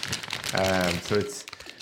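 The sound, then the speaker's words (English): A cellophane wrapper crinkles briefly as salt caramel brittle with hazelnuts and chocolate is unwrapped. The crackling mixes with a voice for under two seconds. “I'm sorry, it's the sound of cellophane.”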